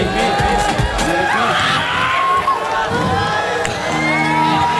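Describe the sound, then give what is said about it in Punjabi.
Audience cheering and clapping at a live song performance, as the performer on stage asks the crowd for applause. A dense, steady roar of voices and whoops with scattered hand claps mixed in continues loudly throughout. “ਤਾੜੀ ਤਾਂ ਮਾਰ ਦੋ ਮੇਰੇ ਵੀ ਪਿੱਛੇ ਵਾਲੇ ਤੁਸੀਂ ਮਾਰ ਦੋ”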